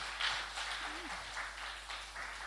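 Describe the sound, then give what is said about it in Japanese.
Audience applause for five people called to the front after their baptism, heard as a soft, continuous patter of many hands clapping at low volume. “もう一回拍手したいと思います”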